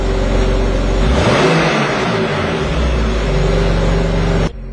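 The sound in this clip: A car engine revving in sport mode gives a loud, steady mid-pitched drone with a brief swell in intensity early on, holding evenly before cutting off abruptly near the end.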